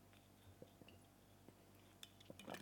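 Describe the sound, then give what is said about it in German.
A person takes a sip of a drink, with faint mouth and swallowing sounds and a few soft clinks, the busiest cluster near the end. “Dann trinke ich nochmal einen Schluck.”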